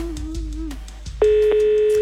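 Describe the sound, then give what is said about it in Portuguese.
A steady telephone ring tone on an outgoing call to a listener during a radio prize game starts abruptly about halfway through and holds one constant pitch to the end. “Primeiro toque, deixa eu ver quem é, Gustavo”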